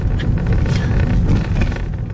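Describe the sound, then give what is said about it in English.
A car driving along a street toward a house: a loud, steady low rumble of engine and road noise, with no talk. “I'm driving with Alejandra to the house now.”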